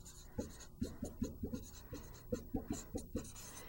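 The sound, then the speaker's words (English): Chalky writing strokes on a board during a maths lecture on limits and continuity: many short, scratchy strokes in an irregular rhythm, with no talk over them. “And let me see if I can find a place to write that on this board.”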